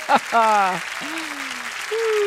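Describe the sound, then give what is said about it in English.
Applause from an audience at a religious gathering, a steady soft patter of clapping beneath a man's voice that speaks and sings over it. “All right, cut the applause. Cut the applause.”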